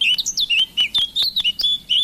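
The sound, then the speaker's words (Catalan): Eurasian blackcap song, from a bird that lives year-round in woodland: many quick, high, clear whistled and warbled notes in short bursts, fairly loud, with no voices. “Tallarol de casquet, Sílvia atricapila. Au que habita tot l'any als boscos.”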